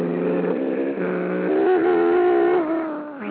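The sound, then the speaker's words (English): A voice imitates a car engine starting, making a continuous buzzing, engine-like hum that steps up in pitch about halfway through, holds there, then eases off slightly at the end. “You want me to start a car? Hold on, I'll start a car.”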